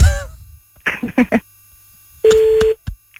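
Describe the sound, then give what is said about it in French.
A telephone call is placed, with a few short clicks and bursts followed by a single steady ringing tone of about half a second, then a brief blip. “Bon, allez, on rappelle.”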